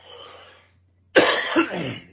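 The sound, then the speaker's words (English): A dry, rough cough and throat clearing from a person with a long-lasting, non-sick irritated throat: a softer rasping burst, a short silence, then a louder, harsher clearing that rattles on briefly. “it just seems like I'm constantly clearing my throat.”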